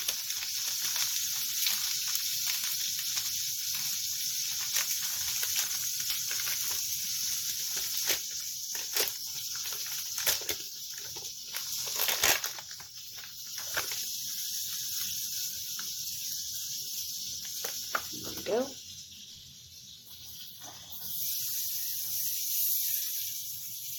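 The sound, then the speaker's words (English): Meat sizzles in a pan for fried rice, giving a steady frying hiss that runs throughout. It is broken by occasional sharp clicks and scrapes, with no voices. “We need to get the meat to cook a little bit.”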